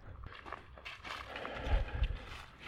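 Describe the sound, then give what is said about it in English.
Footsteps of a hiker on a woodland nature trail at Unity Village in Missouri, a series of soft crunching steps with a few heavier thuds toward the end. “I'm hiking along the nature trail at Unity Village.”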